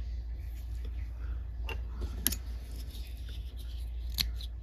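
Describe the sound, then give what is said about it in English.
Scissors trim a clump of Steve Farb fibers while fly tying. A few crisp, sharp snips stand out over a low, steady hum, with no talk. “I'm going to be trimming these, so you don't have to be super neat about it.”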